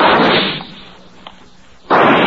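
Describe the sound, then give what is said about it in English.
Pistol shots at a firing range: two loud, harsh bursts, one at the start and one near the end, separated by a quieter stretch with a faint crack in the middle. “Nice shooting.”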